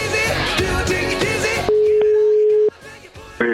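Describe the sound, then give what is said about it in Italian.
A telephone call rings with a single steady, low-pitched tone lasting about a second. A dense, loud stretch of other sound comes before it. “Poi nel pomeriggio di oggi Ferrero chiama Preziosi.”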